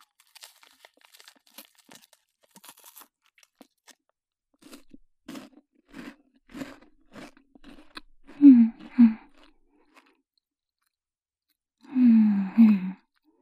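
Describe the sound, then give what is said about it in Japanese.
Someone eating food: a few loud crunchy, chewing bursts after a run of faint clicks and taps, with no talk. “じゃあちょっと食べてみたいと思います。いただきます。”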